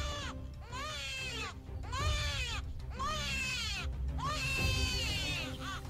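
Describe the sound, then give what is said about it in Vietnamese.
A newborn baby cries loudly in several repeated wailing bursts, each arching up and down in pitch, with short breaths between them. “Bỗng nhiên, chúng tôi giật mình bởi vì nghe tiếng trẻ sơ sinh khóc ré lên.”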